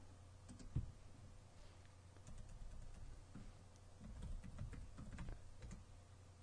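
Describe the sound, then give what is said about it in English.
Quiet typing on a computer keyboard, an irregular run of many light clicking keystrokes, faint against a low steady background, with no talking. “Type in animation.”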